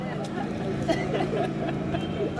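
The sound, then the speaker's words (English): Van driving through the streets of Tala with a loudspeaker announcement about an HIV testing center: a low, steady engine drone with an amplified voice running over it at a fairly quiet, even level. “A van drives through the streets of Tala, announcing the opening of a moonlight testing center here in this small town. The announcer is encouraging people to get tested for HIV.”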